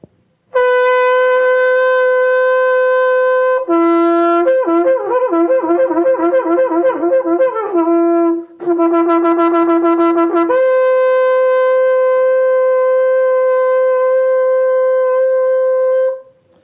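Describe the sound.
A shofar made of ibex horn gives a brilliant, piercing, loud tone. Long sustained blasts frame two stretches of rapid, broken notes that flip quickly between two pitches, and the horn sounds alone.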